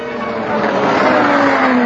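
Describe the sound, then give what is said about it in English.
Four sci-fi airspeeders speed away out of a basement garage in a steady, whooshing engine roar with a humming tonal band. The sound swells slightly and holds at a fairly loud level. “Corrin saw the four airspeeders leaving”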